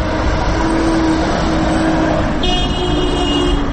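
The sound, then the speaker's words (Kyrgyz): Traffic at a city street intersection in Osh, with cars halted at a red light; a loud, steady engine rumble with sustained humming tones continues throughout. “Мен азыр Ленин жана Гапарайтиев көчөлөрүнүн кесилишинде турам. Бул жерде азыр Гапарайтиев көчөсүнөн келаткан машиналардын токтоп турушун светофордун кызыл чырагы көрсөтүүдө.”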